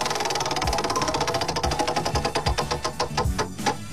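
A prize wheel spins with a rapid train of ticking clicks that gradually spread apart as the wheel slows, ending in a few widely spaced ticks, with no voices.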